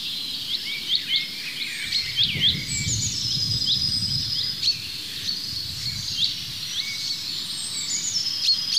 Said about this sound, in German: Dieses Huit, Huit, Huit, Huit, das fast wie Kontaktruf vom Zilzalt klingt, ist aber gepaart mit dem Pink am Ende.